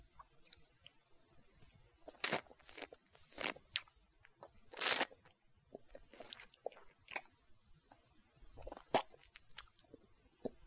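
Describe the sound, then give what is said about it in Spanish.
Biting and chewing while eating ice cream, heard close up: several crisp, crunchy bites and short wet chewing bursts, separated by quiet pauses and fading to softer chewing near the end. “acabo de dar mi primera mordida. Está muy rico.”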